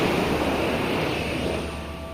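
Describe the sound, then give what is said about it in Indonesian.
Flood water surging across the land of Enggano island, a dense, roaring rush that holds steady and loud throughout and eases slightly near the end. “Air bah itu menerjang seluruh daratan pulau Enggano.”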